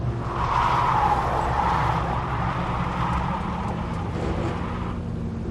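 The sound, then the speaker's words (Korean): Tyres of a speeding taxi slip and spin in mud, a continuous loud hissing roar with low rumble underneath that holds steady for several seconds. “타이어가 미끄러지며 공회전하는 소리가 났다.”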